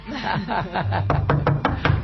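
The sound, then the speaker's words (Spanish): Knocking on a door: a quick series of several firm, sharp raps in the second half, evenly spaced and fairly loud. “está golpeando mi puerta”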